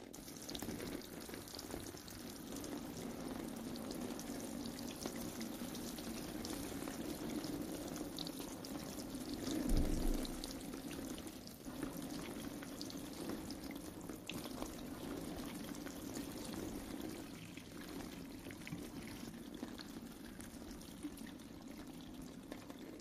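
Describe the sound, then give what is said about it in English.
Running water pours while something is washed off, a steady, continuous rushing wash that swells into a brief louder burst partway through before settling back to the same even flow. “Let's wash it off.”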